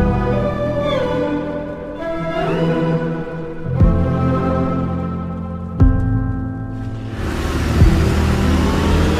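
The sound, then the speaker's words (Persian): A motorcycle engine approaching a car, heard as a tonal, buzzing motor that revs up and down in pitch several times. A couple of sharp knocks cut in, and the sound swells into a louder, rougher roar at the end. “یک مرد با موتور به ماشین نزدیک میشه کلاه سرشه”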